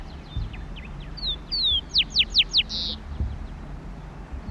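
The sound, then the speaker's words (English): Rufous-collared sparrow singing on Isla Victoria, in open country with tall bushes and totora reeds: a few thin whistled notes, then a run of about five quick descending slurs and a final buzzy trill, clear above low background noise. “Zonotrichia capensis, rufous-coloured sparrow, Isla Victoria.”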